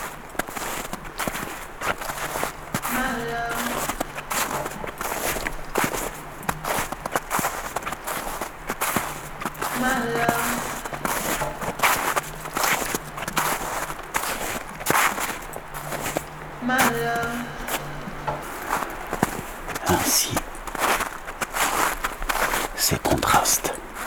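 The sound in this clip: Footsteps of people walking, in a steady, repeated stepping rhythm over a constant, noisy background wash.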